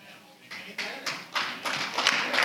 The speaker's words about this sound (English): And yeah, listen, I'm glad y'all are clapping.